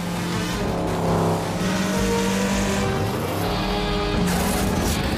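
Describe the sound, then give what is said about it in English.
Motorboat engines roar loud and unbroken during a high-speed boat chase, their droning pitch shifting up and down as the throttles change. “Then Bond grabs the wheel as the other boat closes in.”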